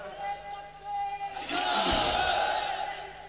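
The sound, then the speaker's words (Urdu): A crowd at a religious gathering raises a slogan together. A single voice comes first, then a loud collective shout swells and gradually fades. “آدمی کھڑا ہو جائے اور اعلیٰ حضرت کا نعرہ بلند کرے ہے کوئی ایسا نہیں پہلے پڑھنا ہے نعرہ پہلے لگانا ہے”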